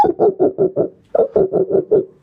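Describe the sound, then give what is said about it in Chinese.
A human voice imitates a dog barking: ten short, mid-pitched, rhythmic yaps in two even runs of five, with a brief pause between them and no other sound. “学狗叫是比较简单。 学狗叫可以”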